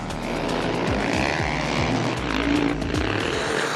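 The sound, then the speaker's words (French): Motorcycles with studded tyres race on the Val Thorens ice circuit, their engines producing a loud, continuous roar with the pitch repeatedly rising and falling as they rev. “Il n'y a pas que les autos qui tournent sur le circuit de Val Thorens, il y a les motos aussi.”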